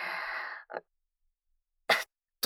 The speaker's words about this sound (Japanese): ちょっとくしゃみ出そうになっちゃって、ほこりでも吸い込んだかなって